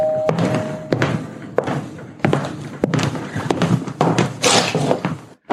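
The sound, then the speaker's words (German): A door being opened, heard as a series of sharp thuds and knocks over constant rustling and shuffling noise, ending with a brief silence and a final thump. “ich gehe mal zur Tür ne?”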